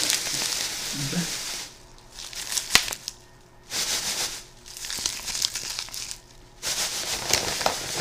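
A bag being crinkled in several rustling bursts, each a noisy, papery crackle, separated by brief quieter pauses.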